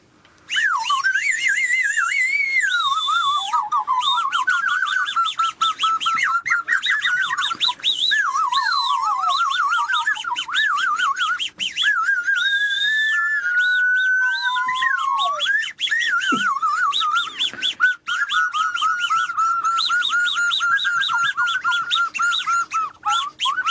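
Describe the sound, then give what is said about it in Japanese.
A person whistles imitations of jungle bird calls in a long, continuous run of chirps, trills and sliding notes. The pitch warbles up and down with quick clicks between phrases. No talking. “なんか鳴き声を聞かせる、鳥の鳴き声ですか。”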